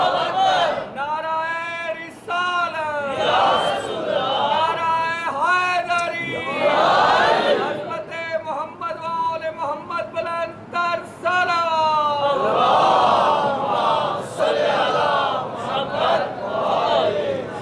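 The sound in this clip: A crowd chants the takbir, Allahu Akbar, in unison as a response during a religious address. Many voices rise in loud, swelling shouts that repeat throughout.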